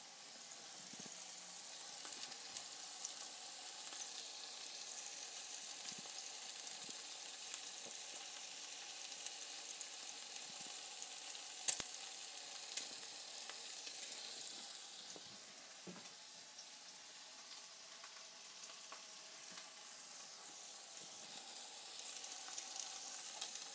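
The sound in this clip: Food fries in a pan, a continuous faint sizzling hiss with a few soft knocks as it is prodded.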